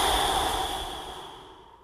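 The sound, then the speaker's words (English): A full exhale pushed out through the mouth makes a single soft, breathy rush of air that starts moderately loud and fades gradually over about two seconds, with no voice. “Let me show you what it sounds like first, and then I will count for you and we can do it together. So first, exhale completely through your mouth.”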